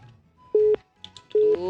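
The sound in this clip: A telephone line tone after a call dropped: two short, steady, mid-pitched beeps of equal length with a gap between them, and faint clicks in that gap.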